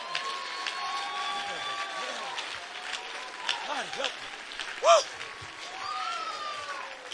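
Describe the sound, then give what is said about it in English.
A church audience clapping their hands during a sermon. Steady, crackling applause continues throughout, while voices speak and call out over it. “And when you've done that, clap your hands again to God.”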